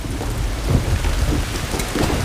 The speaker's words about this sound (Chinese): 雨下大了，带把伞。